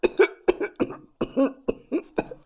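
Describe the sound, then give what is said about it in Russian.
A man coughing, distorted through loudspeakers into a harsh, barking sound. It comes as a rapid series of loud, rough bursts with short gaps between them. “Он закашлялся, но динамики исказили звук, и кашель превратился в утробный лай.”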